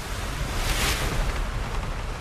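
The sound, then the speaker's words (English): Heavy sea swells with whitecaps roll under turbulent Saharan wind over a warm sea, forming a loud, continuous rushing roar with no breaks. “Water evaporating from the warm sea generates turbulence in the Saharan winds. Heavy swells peaked with white. These are dangerous conditions.”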